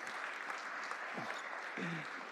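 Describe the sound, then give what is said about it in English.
Faint, steady clapping from a church audience, a soft continuous patter of many hands that holds an even level throughout. “What do we do? Are we clapping or are we not?”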